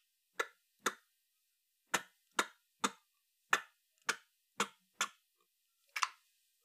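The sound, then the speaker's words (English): A telephone number being dialed by hand, ten crisp, sharp clicks spaced unevenly with a longer gap before the last, each tick dry and bright against near silence. “His fingers dial.”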